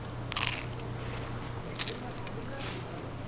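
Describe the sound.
Crisp crunching bites into pizza topped with red chili pepper, dried oregano and garlic powder at a pizzeria: three short, sharp crunches over a low, steady background hum.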